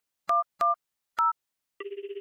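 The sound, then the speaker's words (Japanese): Telephone keypad tones while calling the police: three short, clear dialing beeps at a steady pace, then a pulsing ringback tone. “ってことで、今から通報しまーす。”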